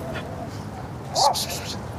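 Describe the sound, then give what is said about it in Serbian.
One of two small dogs gives a single short, high yap that rises briefly above a steady background noise. “dva mala psa stoje i čekaju da laju. Dobra, ajde. Više ni ne čekaju da laju, sad već laju.”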